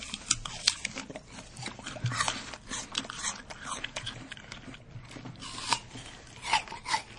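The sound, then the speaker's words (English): Crisp, crunching bites and wet chewing of a sweet apple, with many sharp crunches in an uneven rhythm throughout, a few louder bites standing out from the steady munching. “I'm going to eat the apple.”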